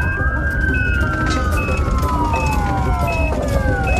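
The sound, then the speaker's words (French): An ambulance siren wails as paramedics rush a collapsed man to a nearby hospital. Long gliding tones sweep slowly downward in layered pitches, while a repeated short high beep pulses on top, loud and continuous over road noise. “Les ambulanciers l'emmènent sous les lumières bleutées et l'emportent au plus vite à l'hôpital du Sartilement, tout proche.”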